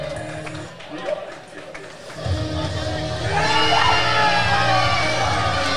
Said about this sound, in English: Oh, man, the Gifted already has the crowd behind them.